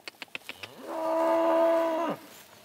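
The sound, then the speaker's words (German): A single long, drawn-out moo from a cow among cattle on farm pasture, steady and fairly loud, preceded by a few short, soft knocks. “Jetzt im Frühsommer wechseln die Rinder dreimal am Tag die Weidefläche.”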